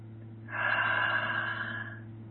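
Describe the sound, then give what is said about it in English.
A single slow, deep inhale, soft and airy, swells for about a second and a half over a low, steady hum. “Okay, nice deep breath.”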